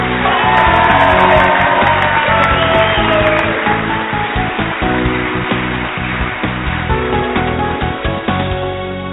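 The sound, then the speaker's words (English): A rowdy studio audience at a live show in Elmira, Oregon cheers and whoops, a dense, loud, continuous roar of crowd noise with scattered shouts that carries on for about nine seconds and eases slightly toward the end. “Hey, keep it down, studio audience. Don't get too rowdy here.”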